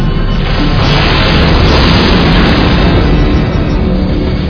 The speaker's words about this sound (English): What are you shooting at us for?